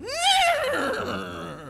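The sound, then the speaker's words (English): A white stallion neighs in a single loud, harmonic whinny that climbs briefly, then falls and trails off in a quavering tail. “And riding in on a white stallion is your new friend, Baston”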